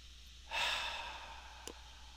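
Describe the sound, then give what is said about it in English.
A deep breath during a guided meditation: a soft, airy rush that swells quickly and fades over about a second, faint and alone, followed by a tiny click. “Connecting to the breath, taking a deep breath in and surrendering the exhale.”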